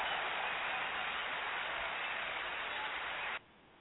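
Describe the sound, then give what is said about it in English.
Audience applause welcoming a guest at a special-edition radio Q&A night: a dense, even roar of clapping at a steady level that cuts off abruptly just before the end. “want y'all to get ready and put y'all hands together for my friend and yours, Abbott.”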